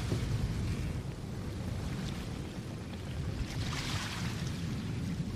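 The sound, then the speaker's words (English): Steady water noise from a boat being paddled, a continuous rushing wash with no separate paddle strokes standing out. “Don't worry, I'll start paddling.”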